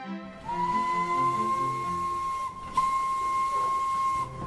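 A train whistle sounds at a village station platform: a steady, high, piercing tone held for about two seconds, then a brief break before it resumes, with hiss underneath.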